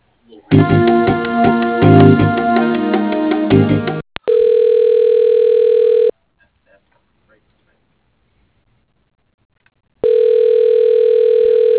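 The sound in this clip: Telephone ringback tone while a call is transferred: two long, steady, mid-pitched tones separated by a silent pause, following a loud, dense stretch of other sound.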